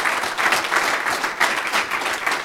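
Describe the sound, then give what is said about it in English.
Dense, loud applause from a conference audience in Düsseldorf welcoming a local organizer, a steady wash of overlapping claps with gentle swells and no voices on top. “So give a warm round of applause to Christian.”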